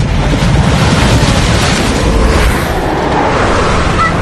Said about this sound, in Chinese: 有暴风雪